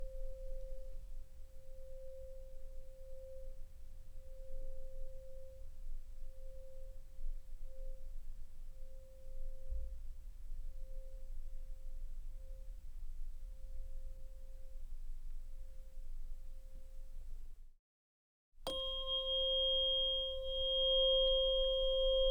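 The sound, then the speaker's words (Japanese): A tuning fork rings in a sound-healing setting, one faint, pure, steady tone held unbroken for a long stretch, then a brief silence before higher, clear pure tones sound together. “すっごく気持ちいい。音叉の音にお兄ちゃんの体が共鳴しとる証拠ばい。”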